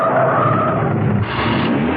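A car brakes hard in a car park, its tyres skidding in a loud, sustained screech and rumble lasting about two seconds, with a slight shift in tone partway through.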